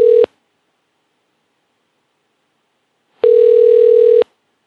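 Ringback tone of an outgoing telephone call that goes unanswered: a steady mid-pitched tone cuts off at the start, then after about three seconds of silence one full tone of about a second sounds, loud and clean.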